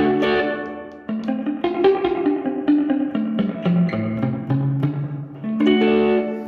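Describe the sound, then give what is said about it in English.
Electric guitar played through a reverb effect pedal with pre-delay engaged. A short phrase, a brief break, then a steady run of sustained notes and chords, each trailing into a washy, echoing tail. “It's got a page two where you got pre-delay, so you can actually put a pre-delay onto it. So this is what that sounds like.”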